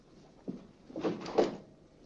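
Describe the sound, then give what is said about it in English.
Rattling of a locked door as someone tries its handle: a brief knock, then a longer clatter of the handle and door. The sound is fairly quiet and no voices are heard. “He turns and goes to the door. Finding it locked, he tries a second door.”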